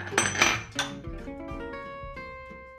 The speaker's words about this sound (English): Now we're gonna combine all of our sugars and seasonings. So start with the brown sugar, then the white sugar, then the flour, and then we're gonna do all of our spices.